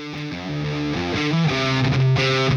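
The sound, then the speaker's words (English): Electric guitar plays through a Marshall JCM 2000 amp with a Big Muff Pi fuzz in the effects loop, giving thick, heavily distorted, sustained chords that swell louder as they ring on. “So let's see what it sounds like. JCM 2000 into the Big Muff Pi effects loop. Sounds glorious.”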